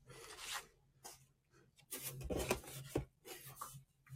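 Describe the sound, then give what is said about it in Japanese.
Faint rasping scrapes of a blade cutting along a ruler held firmly in place, coming in several short bursts with quiet gaps between them. “定規で固定して2回切るな。”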